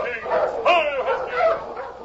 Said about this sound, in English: Hey, it's a dog team. Wonder who's out in this storm.